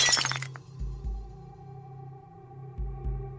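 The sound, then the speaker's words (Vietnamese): A glass cup drops from a hand and shatters in one bright, sharp crash within the first half second, followed by quieter low sounds. “Cái cốc ở trên tay của cô rơi xuống, vỡ tan tành.”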